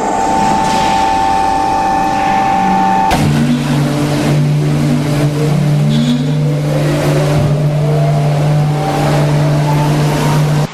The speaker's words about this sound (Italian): Siamo qui in compagnia del capo frantoiano e stiamo per assistere alla miracolosa accensione delle macchine.